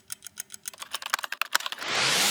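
Someone types a prompt into ChatGPT on a computer keyboard. Many quick keystrokes clatter in an uneven rhythm, growing sharper midway through. A steady hiss then takes over at the end.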